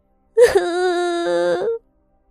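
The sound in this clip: A young woman lets out a single drawn-out wail of protest, loud and voiced. It holds a fairly steady pitch for over a second before cutting off abruptly.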